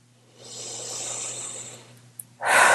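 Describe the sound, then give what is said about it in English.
A big, slow breath in and out during a tapping relaxation exercise: a long, soft, airy rush lasting over a second, followed by a louder, harsher breath starting right at the end. “Big breath.”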